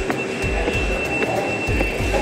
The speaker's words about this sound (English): It's still inside the Oculus World Trade Center train station.